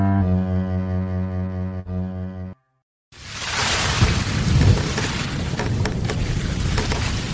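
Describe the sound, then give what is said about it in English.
Heavy thunderstorm rain lashing a boat on a lake, a loud dense hiss with low rumble that starts after a steady musical tone ends and a brief silence follows. “the storm is just... I don't know if I've ever seen one on the lake this bad before.”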